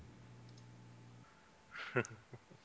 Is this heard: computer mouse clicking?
yes